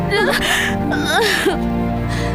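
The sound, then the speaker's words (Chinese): A child crying in wavering, sobbing wails that rise and fall in pitch, heard over a sustained musical background. “好孩子，你哭吧，尽情的哭吧”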